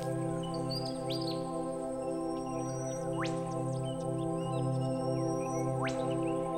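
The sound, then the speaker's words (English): Forest birds chirp in thin, high tweets, with two quick rising whistles spaced a few seconds apart, fairly faint over a steady low humming drone. “the noisy birds twitch around you.”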